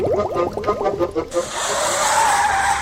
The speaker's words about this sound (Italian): È una frenata.